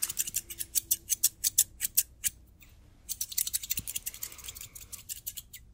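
Scissors trim hair during a barber-shop haircut. A regular run of crisp, sharp snips is followed by a short pause, then a faster, denser burst of cuts, with no talk.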